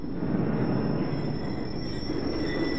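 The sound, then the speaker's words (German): A train passes near the Citroën factory: a continuous rumbling roll under a steady, piercing high squeal from the wheels, with the squeal holding for the whole passage. “Das war der Zug vom Citroën-Werk. Wenn man ihn so deutlich hört, gibt's Regen.”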